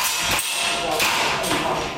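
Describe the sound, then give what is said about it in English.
Civilians fire air guns at targets in a Taipei basement: three sharp, snapping cracks ring out, spaced irregularly over two seconds, above a constant noisy background. “In a Taipei basement, a dozen civilians fire air guns at targets.”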